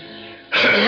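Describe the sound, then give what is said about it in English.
A single throat clearing, a low hum that breaks into a short, harsh, rasping burst, loud and alone. “Must you clear that infernal throat every 2 minutes?”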